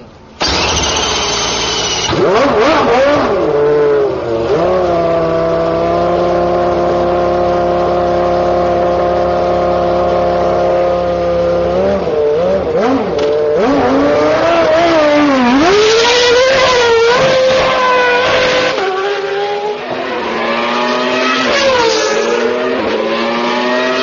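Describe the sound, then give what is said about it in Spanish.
Car engines rev at an auto race in a loud, continuous harmonic drone that repeatedly climbs and falls in pitch, with surging revs near the end. “la carrera de automóviles,”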